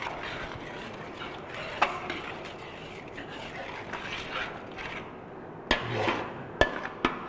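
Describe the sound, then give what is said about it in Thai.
Metal spatula stirring and beating a thick shrimp-paste seasoning sauce as it simmers in a pan. Soft, continuous scraping runs underneath, broken by a few sharp metallic knocks, mostly clustered near the end. “ใช้ตะหลิวของเรานะครับตีเคี่ยวนะครับให้ส่วนผสมเข้าเป็นเนื้อเดียวกันนะครับ”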